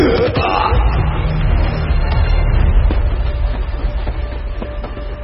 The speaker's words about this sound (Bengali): জ্ঞান হারানোর আগের মুহূর্তে কিন্নর পায়ের মতো ট্রেনের চাকাগুলোকে ছুটে যেতে দেখল সে।